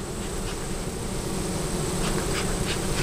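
Honeybees buzz at two hives in a community orchard, a dense, steady drone that holds level throughout with no talking.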